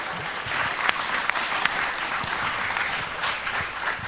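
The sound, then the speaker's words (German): Group applause thanking helpers who washed the dishes: a continuous, even wash of clapping with a few sharper individual claps standing out. “Applaus für alle davon.”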